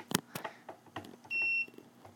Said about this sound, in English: which I'm going to try and do without the click so you can hear it actually beep. It will always start up with this.